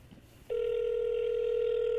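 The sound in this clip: A telephone tone sounds on an outgoing call. After half a second of faint low noise, one steady, clear tone begins and holds without a break to the end.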